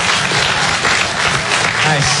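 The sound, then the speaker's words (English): Audience clapping at a stand-up comedy show, a loud, thick wash of many hands held steady from start to finish, with a voice faintly under it toward the end. “Who's a clean one? Clap if you're the clean one.”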